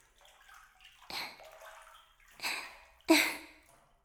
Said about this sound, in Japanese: 肩にお湯かけてあげる。気持ちいいでしょ？